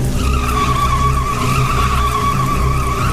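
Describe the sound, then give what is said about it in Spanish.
Tires squealing as a car skids out of control with failing brakes: a loud, continuous high-pitched screech holds steady throughout over a low rumble from the vehicle. “Pepe vio que un hombre con sombrero estaba sentado en el asiento trasero. Fue tal su impresión que perdió el control del volante.”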